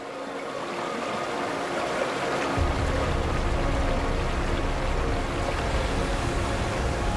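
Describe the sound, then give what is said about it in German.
Rushing water from a broad meltwater stream swollen by melting snow: a steady, dense roar throughout, with a deeper low rumble joining after about two and a half seconds. “Wenn die Sonne weiter über die Nordhalbkugel wandert, beginnt der Schnee zu schmelzen. Was als Rinnsal anfängt, schwillt immer weiter an zu einem breiten Strom,”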